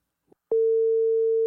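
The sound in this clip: Ringing tone of a call placed to a Turkish number: a faint click, then a single steady, loud mid-pitched tone that starts abruptly and holds unbroken to the end.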